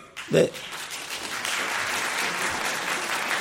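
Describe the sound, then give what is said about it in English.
Audience applause at a debate. A brief louder burst opens it, then the clapping settles into an even, sustained patter with a voice speaking over it. “I don't want to talk over Eliot's applause lines there”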